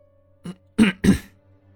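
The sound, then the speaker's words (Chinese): A short, throaty cough comes in three quick bursts: one faint and two louder, close together. No other sound is heard. “新建咳嗽了一声”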